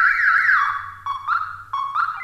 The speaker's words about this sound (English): I love those alarm keychain thingies.